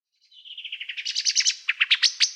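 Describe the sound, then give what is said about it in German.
Common blackbird alarm call: a rapid chattering run of many sharp, high notes that starts faint and grows louder and more spaced toward the end, heard alone. “Genau, das ist eine Amsel. Das ist der, ja, der sogenannte Meckerruf.”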